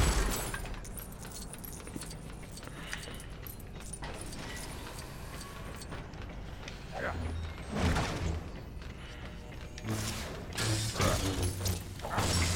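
Clattering crashes of Lego objects being smashed in the video game Lego Star Wars: The Skywalker Saga, with rattling, jangling and creaking bursts over continuous game sound. The bursts grow louder in the second half.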